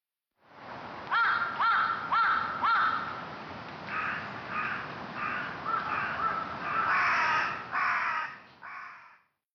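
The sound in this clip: Crows caw in a long series of harsh, raspy calls grouped in short bursts with brief pauses between them, clear and fairly loud against a quiet background with no voices.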